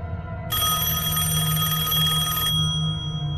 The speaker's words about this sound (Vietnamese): Tiếng lạch cạch vừa rồi đã biến mất, chỉ còn từng hồi chuông điện thoại đổ dồn.